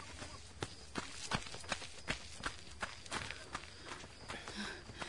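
Running footsteps of two people during running practice, many quick, light footfalls landing in a steady rhythm, fairly faint, with no voices.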